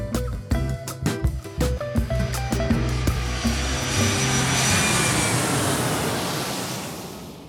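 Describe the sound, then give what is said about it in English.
An airplane's engines roar during takeoff, a loud broad rushing noise that builds, holds steady for several seconds and then slowly fades toward the end. “So buckle your seatbelts and make sure your tray tables and seats are in their upright positions”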